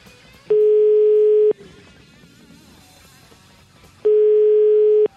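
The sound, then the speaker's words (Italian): Telephone tone while placing a call: a steady, mid-pitched electronic beep of about one second sounds twice, separated by a long pause, loud and clean with no voices. “Io però chiamerei il nostro amico Mocavero di Animalisti”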